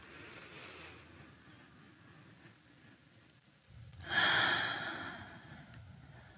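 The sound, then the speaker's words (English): One deep inhalation during a guided prayer and meditation. A soft, airy breath drawn in swells out of a quiet background, then fades slowly. The whole passage stays faint and calm. “Breathe in.”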